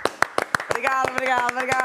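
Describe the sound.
Rhythmic clapping from an audience keeping time along with a performance, many sharp, evenly spaced claps in a steady beat, joined partway through by a sustained voice holding a tone over the clapping.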